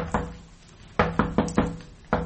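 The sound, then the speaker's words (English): Knocking sounds on an onion cellar door: a single sharp knock, a pause, four quick knocks in a row, then one last knock, loud and hollow. “Oh, 'tis the knock of the onion cellar”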